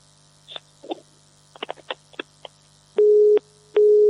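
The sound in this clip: Telephone tones after a dropped call on a phone-in line: a few brief clicks and crackles, then two loud steady beeps of about half a second each in even rhythm, over a low hum, with no talk.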